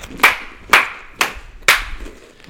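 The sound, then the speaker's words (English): Four sharp hand claps from one person, evenly spaced about half a second apart, each crisp and clear with nothing else sounding between them. “No, that was him clapping his hands.”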